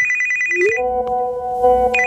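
A mobile phone ringtone plays a bright electronic melody of sustained tones that jump between pitches, loud and steady, with no talk.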